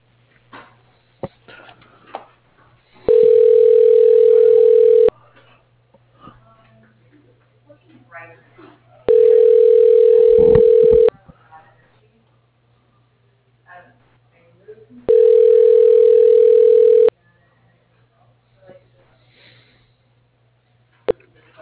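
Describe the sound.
Ringback tone on a phone line while a call is transferred: three steady two-second electronic tone bursts at even intervals over a low constant hum, with faint talk and small noises in the gaps.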